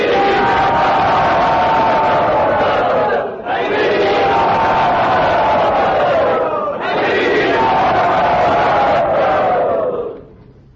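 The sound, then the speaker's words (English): A loud crowd cheers and shouts enthusiastically to welcome a guest in a temple, in three long, sustained swells of massed voices. Each swell dips briefly before the next, and the last tails off at the end. “Let us very loudly and enthusiastically welcome him to Sri Sri Radha Gopinath's temple.”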